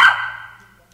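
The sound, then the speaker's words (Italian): A small female dog gives a single short yip for attention, loud at the onset and quickly fading into quiet. “questa è la mia cagnolina, quindi è qua che vuole un po' di attenzione”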